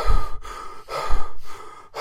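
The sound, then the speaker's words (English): Heavy breathing close into a microphone: a few loud, rough breaths in and out, each separated by a brief pause, with no talking. “when you boost the audio, I breathe dead heavy, don't I? So all you can hear is,”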